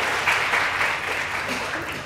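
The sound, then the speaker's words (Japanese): Applause from a church audience welcoming visitors: steady, moderately loud clapping from many hands, sustained evenly for two seconds and easing slightly at the close. “拍手しましょう。”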